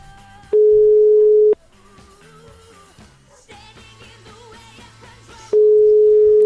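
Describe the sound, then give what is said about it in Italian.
An outgoing telephone call rings out: two loud, steady, mid-pitched tones, each about a second long, separated by a pause of several seconds, with fainter sounds between them. “È partita la prima telefonata, vediamo se risponde.”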